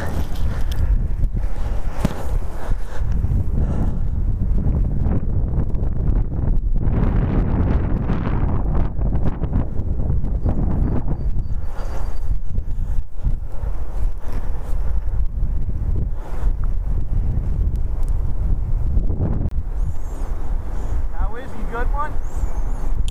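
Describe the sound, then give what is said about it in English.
Strong wind buffets the microphone outdoors beside a hedgerow, a loud, constant low roar and rumble with gusts that rise and fall, and voices partly buried beneath it. “Man, the wind.”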